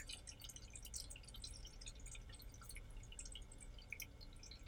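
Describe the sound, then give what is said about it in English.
Water trickles into a toilet bowl as a faint, steady patter of tiny drips, very quiet and heard without any talk. “looks like there's the tiniest trickle still going into the bowl, but it's a lot less than before.”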